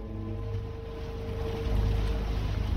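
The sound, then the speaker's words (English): A motor yacht motors through rundown industrial docks, its engine a steady low drone with a sustained tonal hum on top. The drone grows slightly louder toward the end, with no voices. “is motoring his yacht through rundown docks”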